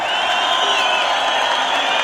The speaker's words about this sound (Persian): همدانی ها رو تشویق کنید.